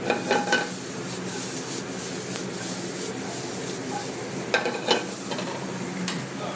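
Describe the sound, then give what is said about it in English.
Mirepoix sizzles in a pan as a handful of black-eyed peas is added, giving a steady frying hiss broken by a few brief stirring clatters near the start and again later. “Got a handful of the black-eyed peas. I'm gonna add those to the mirepoix now.”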